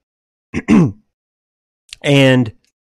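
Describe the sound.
Throat clearing in two bursts: a short rough one, then after a pause a longer, voiced, hum-like one. Both are loud and stand alone between spoken passages.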